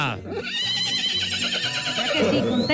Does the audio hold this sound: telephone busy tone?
no